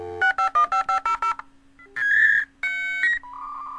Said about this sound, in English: It's the sound of the early days of the internet, when getting connected to the rest of the world happened over a phone line and with a dial-up modem.